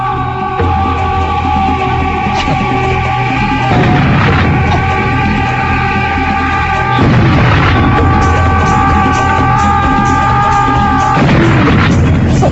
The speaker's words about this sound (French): Ça c'était un gag super dans le premier épisode, on entendait voilà, un cri au loin et un gars qui arrive en se rapprochant avec des bombes à la main et qui explose quand il arrive à votre portée